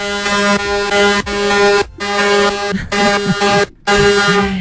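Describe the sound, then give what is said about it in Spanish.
Horns blare in long, sustained honks, five blasts separated by brief breaks, each a loud, rich and buzzy tone held steady, with no talking. “Los pitos que yo tengo aquí. Suena largo y tendido.”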